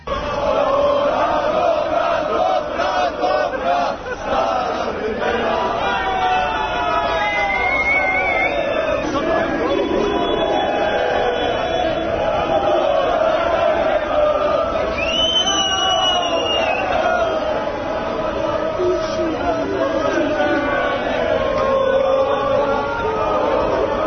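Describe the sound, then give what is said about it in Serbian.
A street crowd in the capital celebrates at 3 a.m. after the national water polo team beat Croatia for Olympic gold. Loud, continuous shouting, whooping and babbling voices carry on throughout, with a brief high whistle partway through. “podsjetit ćemo se na kratko i kako je bilo na ulicama glavnog grada u 3 časa iza ponoći kada su vaterpolisti savladali Hrvate i osvojili zlatnu medalju.”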